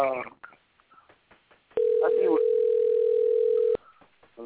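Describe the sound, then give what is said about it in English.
A telephone ring sounds as a single steady electronic tone lasting about two seconds, cutting in over people talking. “Please let Roger answer that phone.”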